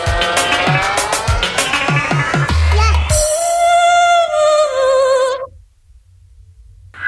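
Car engine loudly revving and accelerating, with squealing tires and racing-car character, at a live DJ sound-system party. Loud music with punchy beats comes first, then a sustained high engine whine that cuts off abruptly near the end.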